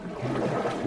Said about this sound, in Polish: Słyszymy to bulgotanie, szmer przestrzeni, samą rzekę. To tak. Płyniesz kajakiem. Płyniemy kajakiem.